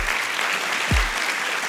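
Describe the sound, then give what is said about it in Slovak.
Theatre audience applause at a national theatre: a steady, dense wash of clapping, with one brief low thump partway through. “Nikdy neviem, že kedy mám ukončiť potlesk, lebo ľudia by tlieskali ešte dlhšie.”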